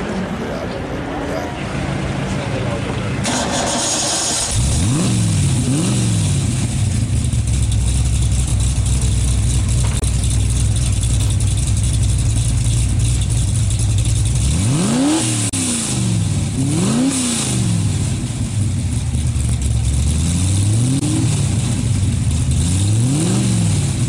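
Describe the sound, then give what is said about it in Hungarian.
Racing cars at a racetrack, their engines roaring loudly and continuously, with pitch repeatedly sweeping up and down as the cars accelerate, shift and rev over a constant wash of engine noise. “És csak ez a versenypályán háttérzaj.”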